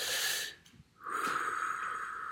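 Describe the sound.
Deep, slow human breathing during a quiet moment of worship: one long airy breath, a short silence, then a longer, steady breath, all soft and faint.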